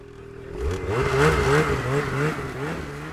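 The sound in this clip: Snowmobile engines rev at a hill climb competition at a ski resort, a loud buzzing whine whose pitch repeatedly rises and wavers over a few seconds, with no voices.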